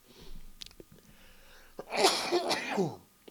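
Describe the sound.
A person troubled by allergies lets out a single loud, breathy sneeze, preceded by a few faint sniffs and small throat sounds in otherwise quiet surroundings.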